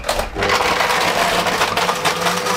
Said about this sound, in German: Wir brauchen vier Eiswürfel. 1, 2, 3 und 4. So, und jetzt geht's ans Mixen. Yeah, Deckel drauf. Und an. Darf ich? Volle Stufe. Volle Pulle.